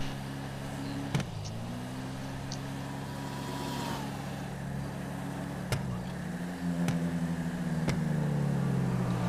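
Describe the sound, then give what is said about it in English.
A car's engine drones in the video game GTA 5, a steady hum whose pitch shifts a few times, with occasional brief sharp clicks over it. “I'm gonna just pass this car. It's daytime out here now, and I'm out here now, in-game”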